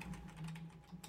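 Faint typing on a computer keyboard, a quick run of light, irregular key clicks over a low, steady hum.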